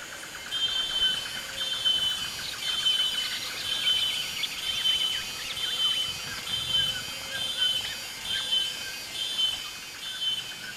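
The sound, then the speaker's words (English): Wild birds calling in a forest, with many short, high whistled notes repeating at an irregular pace over a dense, constant wash of background noise. “I saw pretty much nothing except for trees and leaves and sky, and yet I recorded all sorts of creatures and wild-sounding birds.”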